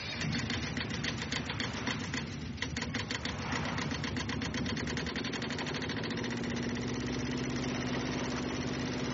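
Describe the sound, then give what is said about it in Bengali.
Small motorboat engine roaring as the boat speeds away from a jetty, a loud, steady, continuous mechanical drone with a rough throbbing rumble that holds level throughout with no clear change in pitch. “Engine গর্জে উঠল, ছুটে চলল boat.”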